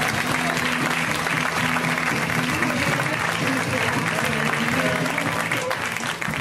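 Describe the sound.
An audience applauds a comedian with steady, dense clapping mixed with some cheering, holding level before dipping slightly at the end.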